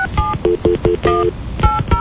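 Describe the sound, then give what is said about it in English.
Telephone keypad dialing tones for an outgoing call: a quick series of clipped electronic beeps, several short and one slightly longer, with faint low thumps between them. “Hold on. Now we're going to call and find out if this is legit.”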